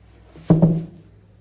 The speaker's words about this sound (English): Now I'll tip the basket over with the hoe.